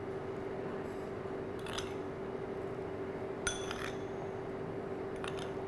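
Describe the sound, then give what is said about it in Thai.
A spoon scoops granulated sugar, giving a few faint, brief metallic clinks and scrapes over a steady low hum. “โอเคนะครับเดี๋ยวเราต้องใช้ช้อนตักนะครับน้ำตาลทรายนะครับ”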